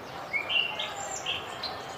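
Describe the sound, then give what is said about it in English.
Bird chirping along a road trip through Cades Cove in the mountains: a few sharp, high, thin chirps in quick succession over a quiet outdoor hiss, with no talking. “Oh, there's an interesting bird, as you can hear chirping really loud.”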